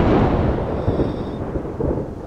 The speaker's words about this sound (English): it starts to rain.